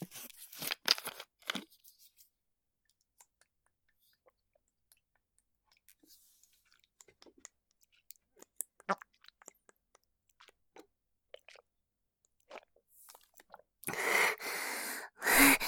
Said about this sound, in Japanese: 500ml のお水用意したんで、ちょっと先にお水飲みます。